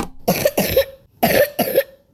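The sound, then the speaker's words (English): Four harsh wet coughs from a girl with a lung illness that has lingered for about four weeks, coming in two quick pairs separated by a short pause, with no talk. “So if you hear a wet cough that won't go away,”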